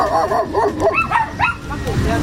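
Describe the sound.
Dogs bark and yip at an international dog breed standards competition in Antalya, with several short, high barks and whimpering yelps and voices mixed in among them.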